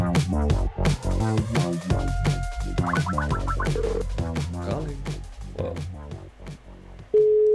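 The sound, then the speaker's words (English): Telephone dialing and line tones mixed into a busy musical bed, with short bright tone bursts near the middle and a loud, steady held tone at the very end. “Dialing.”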